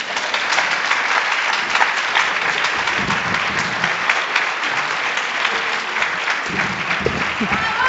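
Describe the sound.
Sustained audience applause after a live performance at a town festival: a dense, even wash of clapping fills the whole clip, with a few voices mixed in underneath.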